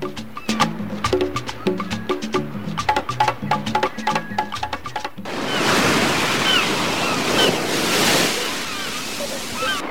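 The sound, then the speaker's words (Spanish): Sea waves wash around a raft at sea in a loud, steady rushing roar mixed with wind, starting abruptly midway after a passage of rhythmic plucked music. “Pasaron algunas horas desde que se echaron a la mar y con las últimas visiones de la isla de Fidel, estalla el primer conflicto sobre la balsa.”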